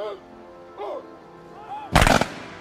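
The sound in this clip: A rifle volley fired by an honor guard at a military ceremony, one loud, sharp crack-burst with a short ragged tail, following a stretch of spoken words.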